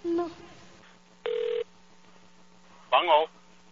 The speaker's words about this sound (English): You want me to try calling from my phone?